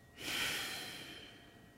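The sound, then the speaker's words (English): A single strong exhale during a restorative yoga breathing exercise, a breathy rush of air that swells quickly and then tapers off slowly over about a second and a half. “Inhale, belly, belly, pause at the top. Strong exhale, pause at the bottom.”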